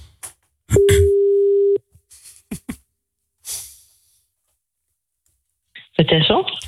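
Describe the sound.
A telephone call being placed to someone's wife: one steady, mid-pitched ringback tone lasting about a second, with brief clicks and scraps of talk around it, then a voice picks up near the end.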